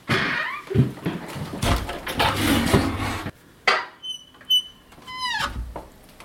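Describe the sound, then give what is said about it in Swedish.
A wardrobe door that will not open all the way is being opened, with irregular knocks, clatter and rattling, then a few sharp high squeaks and creaks. “Jag går nära den här garderoben. Så ska jag öppna upp här. Sticka in handen.”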